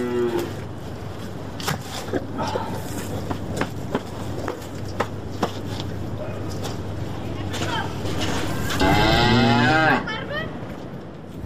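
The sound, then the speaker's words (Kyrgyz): Cattle lowing as livestock head out to pasture: scattered moos over a continuous bed of rustling, clattering noise, ending in a loud, drawn-out moo near the close. “Мына монтип жайытка чыгат мал.”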